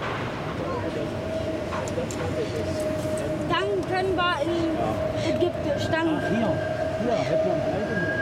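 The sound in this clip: A train passing near roadworks gives a steady tonal hum, with a higher whine joining later over a dense rumbling bed and voices talking throughout.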